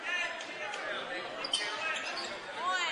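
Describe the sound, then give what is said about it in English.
A basketball is dribbled on the court during a game, its soft bounces faint beneath steady crowd noise and voices. “with the basketball, dribbling it out”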